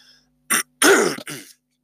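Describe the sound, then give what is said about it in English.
A cough or throat clearing: three short, rough, throaty bursts with brief gaps between them, loud and alone against a quiet background. “Sorry about that cough.”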